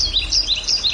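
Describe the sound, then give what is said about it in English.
Birdsong in open countryside in northern Baltimore County: a rapid run of bright, high chirps repeating several times in quick succession over a faint low rumble. “This is the sound of open space in northern Baltimore County.”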